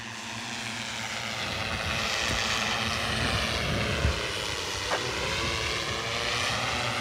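An autonomous search-and-rescue drone flying overhead, its propellers making a continuous, steady engine-like drone that swells slightly and holds for the whole stretch, with no voices.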